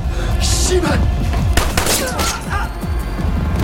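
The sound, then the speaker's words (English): Gunshots in a film shootout as a masked man with a revolver and a police officer trade fire: a few loud bangs and heavy thuds break through a busy action soundtrack, with a voice talking over them. “The gunman slumps forward. It's the second gangster from the parking lot. A naked man in a mask stalks out with a revolver. Ludlow shoots at him. The guy shoots back. Ludlow takes cover.”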